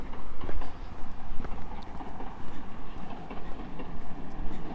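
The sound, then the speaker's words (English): A train pulling out of a station in the early morning: a steady rumbling clatter with repeated rhythmic clacks running throughout, with no voices. “That's a train leaving Carbery's Bay station, headed for St Ives.”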